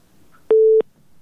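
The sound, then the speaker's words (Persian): Telephone busy tone after a listener's call drops during a phone-in: a single steady mid-pitched beep lasting about a third of a second, clear and alone against near silence. “بله بله، تماس شنونده ما قطع شد، تماس دیگه میگیریم.”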